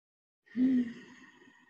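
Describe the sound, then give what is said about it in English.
A single deep breath drawn in during a slow breathing exercise, with a faint voiced edge, then released as a long, soft hissing exhale that fades out gradually. “So it sounds like this. You breathe in like this wave rising,”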